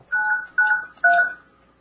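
Telephone DTMF dialing tones: three distinct keypad beeps, each a steady two-tone chirp lasting roughly a quarter second, separated by brief gaps and moderately loud against an otherwise quiet line.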